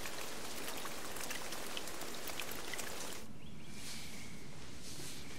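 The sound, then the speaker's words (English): Rain patters on the cover of an in-ground pool on a wet morning, a dense, continuous spatter of many small drops that shifts partway through to a duller, less crisp texture. “A wet morning with rain pattering down on the cover of an in-ground pool.”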